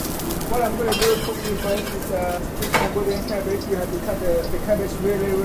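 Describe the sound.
A wok heated with oil in a busy restaurant kitchen, where blue flames shoot up as it is lifted. Hissing, rain-like sizzling and light metallic clatter run under steady talk.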